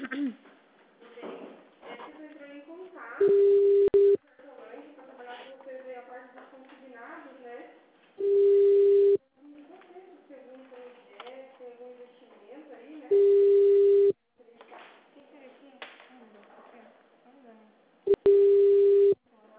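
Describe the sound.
Telephone ringback tone heard during a call: four steady single-pitch beeps, each about a second long, spaced several seconds apart, with talk over the thin, narrow sound of a phone line in between.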